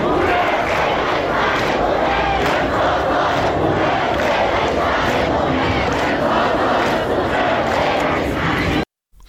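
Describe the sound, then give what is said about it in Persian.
A large crowd of university students chants in unison at a protest rally, loud and relentless, with the rhythmic shouting cutting off abruptly just before the end. “امروز هم دانشگاهیان آقای روحی تجمع اعتراضی پرتعدادی رو شکل دادن که صدای یکی از اعتراضهای اونها رو میتونیم بشنویم.”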